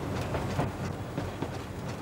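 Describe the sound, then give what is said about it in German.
A Wismar rail bus railcar runs on island railway tracks: a steady, loud rumble with a rhythmic clickety-clack of wheels over the rails. “1997 kaufte die Inselbahn den Wismarer Schienenbus von der Deutschen Gesellschaft für Eisenbahngeschichte zurück. Ein echter Inseltriebwagen muss doch frische Seeluft schnuppern.”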